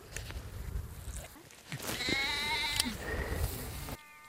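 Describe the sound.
A lamb with a fractured leg bleats in a couple of drawn-out, quavering cries in the second half, louder than the rustling and scattered noise before them.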